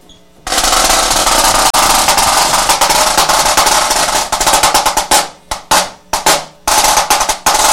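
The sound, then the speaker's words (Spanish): A high-tension Kevlar snare drum plays a loud, dense, rapid roll that runs steadily for several seconds, then breaks into a few short, sharp bursts separated by brief gaps. “Que este es un snare. Snare drum. Snare drum de alta tensión. Esto que ven aquí es Kevlar. A ver, entonces enséñanos cómo suena.”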